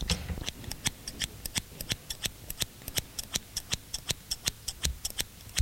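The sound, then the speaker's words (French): Scissors snip through still-wet hair at the front of the head, making many crisp, quick metallic clicks in a steady, even rhythm with no voices. “Puis, avec des ciseaux, il se recoupe les cheveux sur le devant.”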